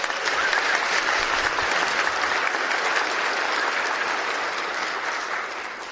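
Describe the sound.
Church audience applause welcoming a speaker to the pulpit: a full, dense wash of clapping from many hands that holds steady for several seconds, then tapers off at the end.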